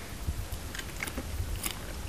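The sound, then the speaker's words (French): Crisp crunches of a dry snack being bitten and chewed, a few sharp cracking bites scattered over a soft, steady chewing noise, fairly faint and with no talking. “Ah, ça croustille. Mmh. Ils sont secs, plus croustillants.”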